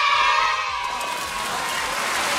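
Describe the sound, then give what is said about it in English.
A round of applause with some cheering, a dense, steady wash of clapping that stays loud and even from start to finish. “But hey, I'm gonna give you a round of applause, all right?”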